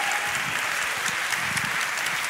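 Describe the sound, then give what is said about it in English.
Audience applause, a dense, even wash of many hands clapping that holds at a steady level throughout. “If Chris Murphy's still watching, I'll note you got a bigger applause.”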